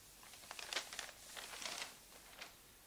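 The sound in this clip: Wrapping paper on a gift crinkles as tape is applied: a quiet, continuous run of irregular rustles and crackles with a few sharper crinkles, no voices.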